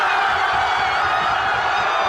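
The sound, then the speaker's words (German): A crowd cheering in Spain after the final whistle of a World Cup final: a loud, dense, unbroken roar of many voices, with no single shout standing out. “Dort ist natürlich nach dem Schlusspfiff der große Jubel ausgebrochen.”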